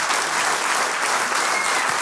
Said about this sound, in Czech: Mám z vás radost, potlesk pro vás.